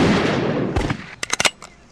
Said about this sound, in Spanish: Por todo ello, el disparo para la empresa de micros El Rápido.